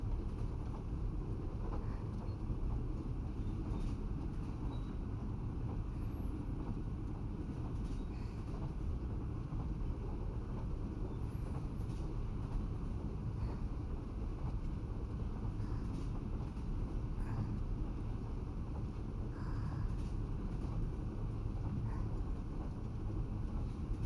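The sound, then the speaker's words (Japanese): A slow-moving train runs with a quiet, continuous low rumble and rushing noise. The sound stays steady throughout, with no distinct clanks or horn. “列車の奏でる音を聞いて。ゆっくり走ってるから、いつも以上にリラックスさせてくれるでしょ。”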